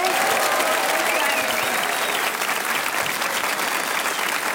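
An audience in the Spiegel Tent applauds and cheers a live act. Many hands clap in a loud, continuous wash with some shouts near the start. The applause stays full and steady, thinning only slightly toward the end.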